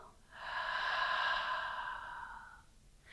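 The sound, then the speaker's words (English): A deep breath during a guided breathing exercise: one long, airy exhale that swells, holds steady and slowly fades. Another breath begins right at the end, with no talking. “And then take another deep breath in. And then as inspired, exhale.”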